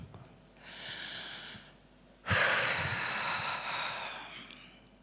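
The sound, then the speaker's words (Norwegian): Slow breathing in and out: a soft, hissing inhale, then a sharper, louder exhale that starts abruptly and fades gradually. No words are spoken. “hvor du puster inn og ut. En gang til.”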